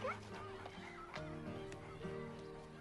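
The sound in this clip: A dog whimpers and gives high yips in short, rising chirps, heard alongside other tonal sounds and possible talk.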